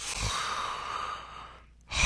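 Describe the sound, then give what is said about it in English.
A man's voice imitates a big, heavy breath: one long, breathy exhale that gradually fades into a short silence before another sharp breathy sound begins. “He would always like do this big breath before he would answer any question.”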